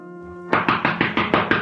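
Knocking on a door: a rapid, even series of firm knocks starts abruptly just after a held musical tone ends, with each blow hard-edged and evenly spaced.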